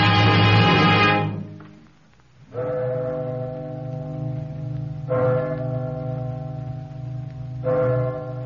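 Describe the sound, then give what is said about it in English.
Liberty Bell ringing: slow, evenly spaced strikes, each a deep, rich clang that swells into a long humming resonance and carries into the next. Loud and steady, with no voices. “This is the sound of the Liberty Bell.”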